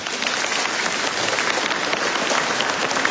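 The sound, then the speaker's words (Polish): Applause rings out for a children's rosary group, a steady, dense patter of many hands clapping at once that sounds rather like rain, holding at an even level throughout with no voices. “Brawa dla Was, bądźcie pozdrowieni.”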